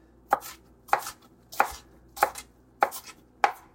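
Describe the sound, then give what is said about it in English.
Knife mincing food coarsely on a cutting board, heard as six crisp, evenly spaced chops in a steady rhythm with no voices. “I'm going to give it just a nice, good mincing. Now, it doesn't have to be exact. Some nice coarse slices,”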